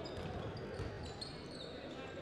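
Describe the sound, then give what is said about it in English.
A basketball is dribbled on a court during a high school game, giving a few faint, dull bounces. They sit under a quiet wash of gym and crowd noise. “Dribbles right out to the right wing. Picks up his dribble.”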